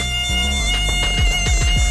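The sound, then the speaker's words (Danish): Mosquitoes whine as they wake early and start hunting during a solar eclipse: a thin, steady, high drone over low tones that swoop repeatedly. “Ja, det er de her, jeg skulle til at sige venner, men det er de jo bestemt ikke, fordi myggene, de vågner så op til død og begynder jagten før tid.”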